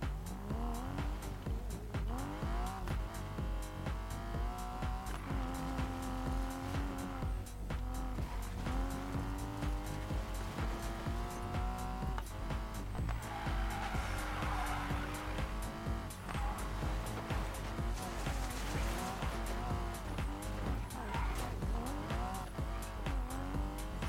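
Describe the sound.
A car cruises around with its engine droning continuously, the pitch wavering up and down throughout, while tire squeal mixes into the steady, dense noise; no one speaks.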